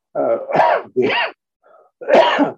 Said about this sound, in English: I have reflux, so that's what the cough is.